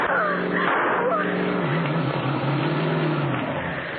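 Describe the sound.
A car engine roars loudly as the car drives fast across lawns and fields, a dense, continuous drone that fills the whole stretch without a break.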